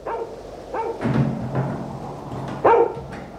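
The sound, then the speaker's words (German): A Great Dane barks a few times, deep and short, with loose gaps between the barks and the last one loudest; no one speaks. “Sorgen Sie bitte dafür, dass mich die Dogge nicht auffrisst.”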